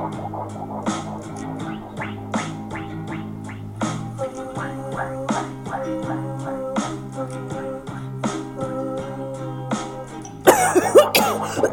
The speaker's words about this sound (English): Wei Yang exclaims, only to start to cough again. He really has inhaled far too much smoke and fumes for tonight